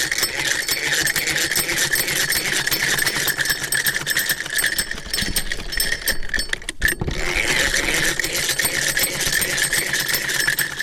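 A sewing machine runs in a steady, loud mechanical whir as a woman tailors clothes at home. Its fast rattling stitch continues throughout, broken only by one momentary pause.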